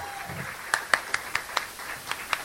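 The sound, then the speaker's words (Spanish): Sparse audience applause: a handful of distinct, sharp claps at an irregular pace, fairly faint over a soft background. “Un aplauso para la cultura. Un aplauso para la defensa de la cultura.”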